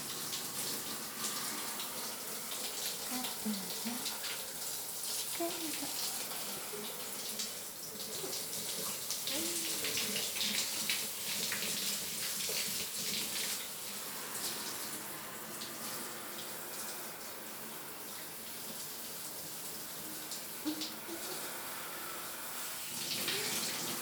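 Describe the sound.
Running water flows steadily as soap foam is rinsed off, a faint, even hiss with small splashing variations lasting throughout, with no talk.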